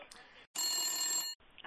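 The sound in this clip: A telephone ringing with an incoming call: one loud, bright electronic ring lasting under a second, between quieter stretches.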